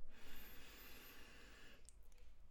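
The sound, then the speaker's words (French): A person taking one long, deep breath in during a short relaxation pause, a faint breathy rush lasting nearly two seconds before fading into quiet. “On inspire un grand coup”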